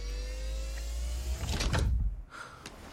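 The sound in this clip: A door being closed: a short burst of rattling, clunking mechanical noise mid-clip over a low steady hum, which then drops away, leaving quieter noise.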